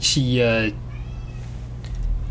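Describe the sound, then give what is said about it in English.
A cat meows plaintively once in a loud, drawn-out cry with a wavering pitch at the start, followed by a low steady hum and faint background noise. “is there a cat in the background? Are you hearing, I'm hearing plaintive meows from my side? I'm hearing plaintive meows.”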